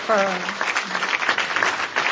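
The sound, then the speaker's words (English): Audience applause after a certificate is presented at a corporate responsibility event, a dense, even patter of clapping that starts under a speaking voice and carries on steadily to the end. “a round of applause”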